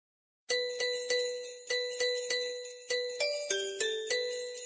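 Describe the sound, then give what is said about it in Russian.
Small bells ringing out in the street, from a New Year fairy tale: many bright, evenly spaced strikes, each ringing out and fading, with a few lower-pitched notes toward the end, heard alone without talk. “Вдруг откуда-то с улицы послышался звон колокольчиков.”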